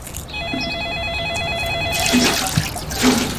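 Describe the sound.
A telephone ringing with a steady, trilling electronic tone for about two seconds, then stopping as softer rustles and knocks follow.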